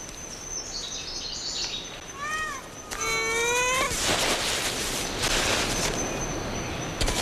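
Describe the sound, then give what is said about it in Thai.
Ring-tailed lemurs of a troop calling on Madagascar: high twittering notes, then a few wavering cat-like cries that rise and fall, over a steady hiss of background noise. “ลีเมอร์ริงเทลอยู่กันเป็นฝูงบนเกาะมาดากัสการ์แต่ละฝูงต้องการดินแดนของตัวเอง”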